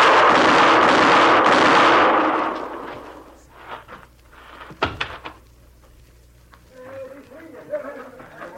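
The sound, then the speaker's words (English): Gunshots in a radio drama: sharp, brief cracks burst out in close succession after a loud rushing noise fades away, and a voice follows. “You got him, Mr. Dillon. You got him. Yeah. You hit him all three shots.”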